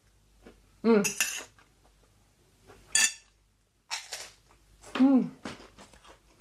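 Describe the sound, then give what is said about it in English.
A fork and spoon clink and scrape against a plate of nasi goreng, Indonesian fried rice, eaten with the spoon in the right hand and the fork in the left. A few bright bursts of metallic clatter come between quiet pauses. “So I'm just going to grab a fork and a spoon, because that's how Indonesians would eat their nasi goreng. Spoon in the right hand and fork in the left.”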